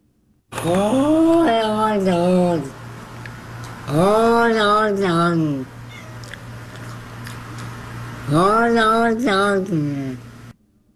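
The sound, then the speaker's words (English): A cat meowing in an old talking-cat video recorded on VHS: three long, drawn-out yowling meows with wavering, speech-like pitch, loud and alone. “classic ones like the talking cats. You know, sometimes their meows sound like cats.”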